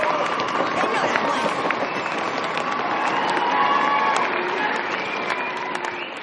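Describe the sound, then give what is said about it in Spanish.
Crowd applause and cheering in a school hall as Slytherin house is announced first with 472 points in the 2001 fantasy film Harry Potter and the Philosopher's Stone. Dense, continuous clapping mixes with excited shouts and crowd babble at an even, loud level. “Snape aplaude y Malfoy grita entusiasmado.”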